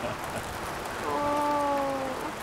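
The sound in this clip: Rain falls as a steady, even hiss throughout. A faint tone briefly joins midway.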